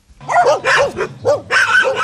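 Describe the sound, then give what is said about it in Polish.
A miniature Pomeranian spitz dog yaps in a quick series of high, sharp barks with brief gaps, the last ones running together into a loud, shrill burst. “Szpic miniaturowy pomeranian.”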